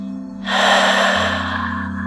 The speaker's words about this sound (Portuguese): Segure 3, 2, 1 e expire.